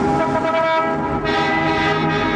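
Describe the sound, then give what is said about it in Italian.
A car horn sounds at a city intersection, one steady, loud, harmonic blare held for the whole clip with no pause or break. “Il suono di un clacson”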